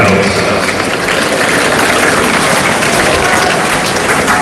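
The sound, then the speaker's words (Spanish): Tennis crowd at Court Philippe Chatrier, Roland Garros, applauding during a match: loud, sustained clapping blended with a broad roar of crowd noise, unbroken from start to finish. “A ver, este es el sonido de la Feliz Chatrier.”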